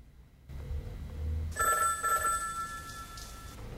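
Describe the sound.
A telephone rings in a hotel suite: a few bright electronic ring pulses start partway through and repeat in quick bursts over a low, steady background hum.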